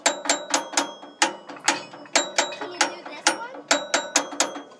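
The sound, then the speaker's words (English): Gears turning in a mechanism make dry, clicking ratchet sounds: many sharp ticks in short regular bursts with brief pauses between them, each click ringing a little after it. “Those are gears. Yeah. Can you get the noise in here? Oh, yeah. Ooh, I like that. The grinding of the gears.”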